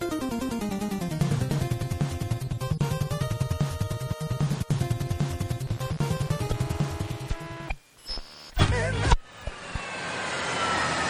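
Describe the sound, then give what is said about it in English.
Airplane landing: a loud, steady engine drone with strong tonal harmonics runs throughout, broken near the end by a sudden drop and a couple of abrupt roaring bursts before the drone resumes. “Well, I think that was a successful landing, don't you”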